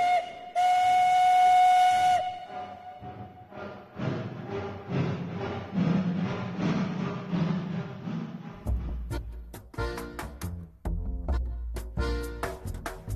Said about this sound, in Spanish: Así que, venga, suban ya este tren, que nos vamos. ¡Atención, pasajeros! ¡O comboio vai partir!